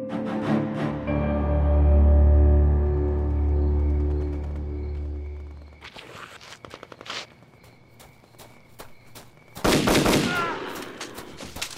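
Video game gunfire follows a long, loud, low rumbling drone: a few sharp, scattered shots, then a dense, loud burst of rapid fire near the end.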